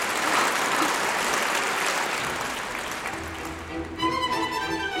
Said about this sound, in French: Ils sont debout. Ils applaudissent.